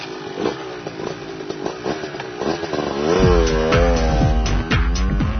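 A powerful motorcycle engine runs with a rough, pulsing rumble, then revs up partway through into a louder, sustained drone with a wavering pitch.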